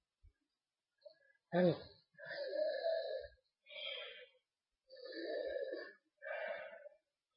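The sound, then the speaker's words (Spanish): A nervous woman takes deep breaths to calm herself: a sharp gasping intake followed by several long, heavy, partly voiced breaths with short pauses between them. “Tranquila, verte tranquila. Respira hondo.”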